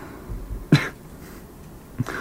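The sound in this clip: A voice imitates a sleeper suddenly catching and holding his breath: a sharp, throaty gasp, a stretch of near quiet, then a second short catch at the end.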